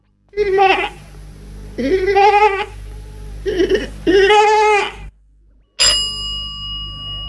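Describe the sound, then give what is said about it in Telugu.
Goat bleating: four tremulous, wavering bleats, each under a second long, come in a row, and a bright ringing bell-like tone follows after a short gap. “ఇది మేక అరుపు.”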